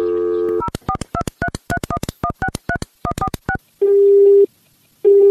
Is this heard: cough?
no